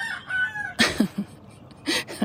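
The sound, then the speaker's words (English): A rooster crows at a person, starting with a drawn-out, strained call followed by a few harsh, raspy bursts with short gaps between them. “laugh when your rooster's trying to crow at you. He thinks I'm a chicken, and so he wants to get me to go into the coop, and I refuse.”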